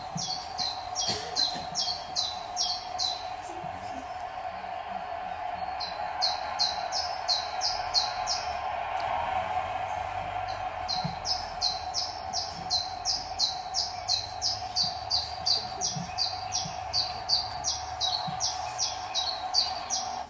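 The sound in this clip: Bird song with a mechanical character: series of rapid, high, evenly spaced chirps repeat, the later runs growing longer and faster, over a faint steady hum.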